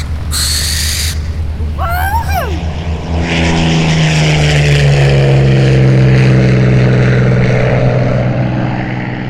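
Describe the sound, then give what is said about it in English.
A propeller aircraft takes off, its engine drone loud and continuous, swelling fuller after the first few seconds and holding a steady buzzing tone to the end. “it is time for takeoff.”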